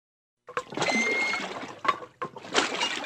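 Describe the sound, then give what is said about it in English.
Water sloshes and splashes around a rowboat on a cold, windy northern Vermont pond in late March, only recently free of ice, with a few sharp splashes amid steady, fairly faint lapping. “Late March really isn't the ideal time of the year for a rowboat in this northern Vermont pond”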